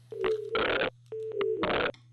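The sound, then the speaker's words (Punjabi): Telephone call failing to connect: a thin tone running into a harsh burst of static, the pattern repeated twice over a low steady hum. “ਲੱਗਦਾ ਜੀ signal 'ਚ problem ਹੈ, ਕਾਲ connect ਨਹੀਂ ਹੋ ਪਾ ਰਹੀ”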